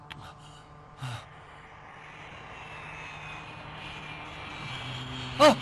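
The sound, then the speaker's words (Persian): Airplane landing: a soft, low engine drone slowly builds in loudness with a faint thin whine running across it, and a short breathy vocal sound appears near the end. “اونا هواپیماش اونه، الان داره میشینه.”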